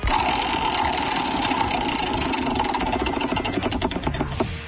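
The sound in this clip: A game wheel spinning, a loud, dense stream of rapid ratcheting clicks that runs without a break, the individual clicks growing more distinct toward the end.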